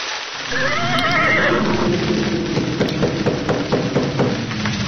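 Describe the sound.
A horse neighs loudly at night in bad weather, a long wavering whinny that fills the first seconds, followed by a steady run of rhythmic knocks beneath a constant noisy wash.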